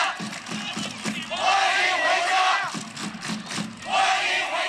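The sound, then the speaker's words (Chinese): Kunming football fans chanting together to welcome player Gu Wenxiang, with loud massed voices rising in a few rhythmic waves and a rumbling crowd between the chants. “这个是昆明的球迷对顾文祥的一个欢迎哈”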